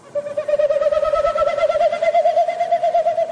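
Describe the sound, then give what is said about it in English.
A male Wilson's snipe in spring territorial flight, winnowing as its wingbeats push air through stiff tail feathers: a hollow, loud, rapidly pulsing whistle that climbs slightly in pitch over about three seconds. “What you heard is a Wilson snipe doing its territorial sound, but it's made with its wings and its tail.”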